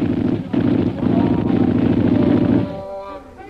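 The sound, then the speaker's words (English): Machine gun fire during an attack on an old lamasery: a loud, dense, rapid burst sustained for about two and a half seconds before dropping away. “Shanghai Lil, Bob McGuire, and Kolo sprang to their machine gun”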